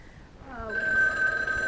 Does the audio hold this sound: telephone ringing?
yes